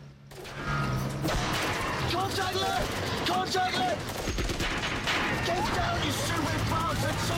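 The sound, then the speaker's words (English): Gunfire from gunmen on clifftops above a canyon, with bullets thunking against the bodywork of moving vehicles: many rapid shots and metallic clanks over a continuous rumble, with voices mixed in. “As they drive through a canyon, bullets ring out from some gunmen on the clifftops and thunk against the bodywork of the vehicles.”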